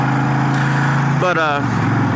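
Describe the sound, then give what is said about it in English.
Steady engine drone of a 2010 Honda Interstate, a 1300 cc cruiser motorcycle, being ridden: a continuous loud, low rumble with brief talk over it partway through. “I'm riding a 2010 Honda Interstate. It's my second bike. My first bike was a 81 VT 1300, by the way, is the Honda Interstate, 1300 cc's. It's a cruiser, a little bit of muscle, lots of torque, which cruisers are known for.”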